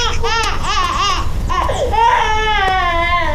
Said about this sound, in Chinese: 你把孩子吓哭了